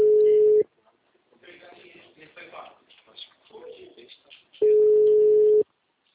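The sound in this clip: Telephone ringback tone of an unanswered call: two long, steady, mid-pitched beeps separated by a pause of about four seconds, with voices talking quietly in the gap.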